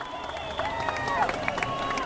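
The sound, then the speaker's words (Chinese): Crowd cheering during a Mazu goddess procession as it reaches a temple: a continuous chorus of raised voices and shouts, moderately faint, with scattered claps. “如果你戴着耳机，你可以从这个人群的欢呼的气氛里面感受得到”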